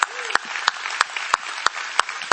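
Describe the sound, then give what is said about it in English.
Church audience applause with a steady bed of clapping, cut through by loud rhythmic hand claps landing at an even, quick pace. “So give our online audience some big hand clap.”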